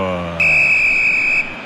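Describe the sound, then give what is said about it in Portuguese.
A referee's whistle ends a football match between Norway and Brazil at MetLife Stadium with one shrill, steady blast lasting about a second, heard as a commentator's voice trails off. “joga pra frente, apita o árbitro.”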